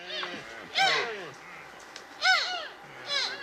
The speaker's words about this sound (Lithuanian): Čia girdite elnio patelės ir jauniklio balsus.